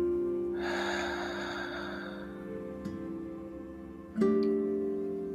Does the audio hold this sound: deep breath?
yes

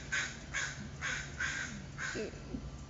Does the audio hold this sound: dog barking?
no

